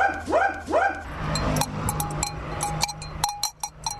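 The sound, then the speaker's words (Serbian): Three barks from the owner's dog at the entrance of a safe house for abused men, then a clapper bell clanks with many bright metallic strikes over a steady ringing tone. “Ulazak u sigurnu kuću za maltretirane muškarce najavljuje zvono klepetuša i vlasnikov pas Marinko.”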